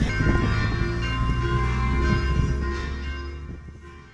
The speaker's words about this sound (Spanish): Eso era lo que se escuchaba a las afueras de la Escuela José Martí en San Isidro de Heredia, justo en el momento en que las campanas de la iglesia marcaban el inicio de la misa